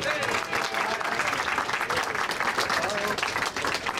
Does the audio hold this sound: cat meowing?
no